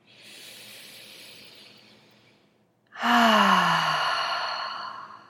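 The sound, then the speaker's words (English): Deep cleansing exhale during breathing meditation: a quieter airy inhale, a brief pause, then a loud breathy sigh that falls in pitch and fades slowly. “envisioning that with every exhale out, you are letting go of something that does not serve the human that you are in this very moment.”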